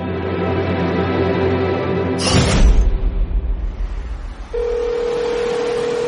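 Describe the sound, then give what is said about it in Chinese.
A mobile phone dials a call. A steady, loud electronic tone is followed by a short, sharp burst and a brief rustle, then a continuous mid-pitched calling tone. “孟昭拿起手机给任斌拨通了电话，任斌很快接了起来。”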